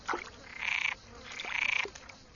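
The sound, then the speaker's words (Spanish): Frogs croaking inside a well: two long, pulsing trilled croaks, each lasting about half a second, with brief shorter calls before and between them. “Los pozos sirven como viveros para las ranas, que se mantienen a resguardo de muchos de sus depredadores.”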